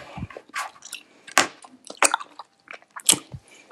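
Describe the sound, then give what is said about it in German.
Chewing of a light, sweet, lemon-flavoured snack: several crisp, crunchy bites and moist squishing bursts come at an uneven rhythm, with no talking in between. “Okay, dann esse ich mal.”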